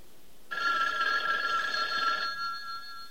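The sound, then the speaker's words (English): A telephone bell rings in one sustained, high metallic trill that starts after a short silence, holds steady, then decays into a lingering tone. “Maybe you better answer the phone.”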